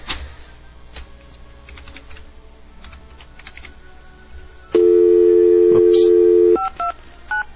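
A telephone call being placed live on air: a run of key clicks, then a loud steady dial tone for about two seconds, followed by a few short dialing beeps.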